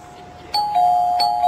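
Telephone ringing: a steady electronic tone that breaks into two sharp, brighter ring bursts at an even interval, clear and alone with no talk.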